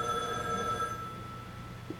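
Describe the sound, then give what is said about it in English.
A telephone rings with a steady electronic tone for about a second and then stops. The ring is fairly faint over a low background hum. “Excuse me while I answer the phone.”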